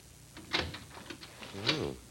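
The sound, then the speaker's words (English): Someone tries a greenhouse door and opens it: a faint rattle of the handle comes first, then a short creaking squeal as the door swings. “Let's see if we can get in the greenhouse and have a look around. Try this door here.”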